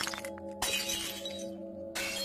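Things break and shatter inside, with a few sharp crashing bursts of glassy debris over a steady low hum, fairly faint overall.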